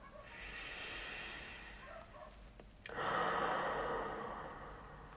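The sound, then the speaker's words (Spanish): Slow, deep breathing in through the nose and out through the mouth during a calming breathing exercise: two long, soft, airy breaths, each a steady hiss lasting a few seconds, quiet and without talk. “tomando dos o tres respiraciones lentas y completas, inhalando por la nariz y exhalando por la boca.”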